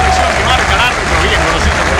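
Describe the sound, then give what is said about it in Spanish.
Football stadium crowd rising to applaud a player at a Boca match: loud, dense, continuous clapping mixed with crowd noise, holding at an even level throughout. “Y se levanta la gente a aplaudirlo”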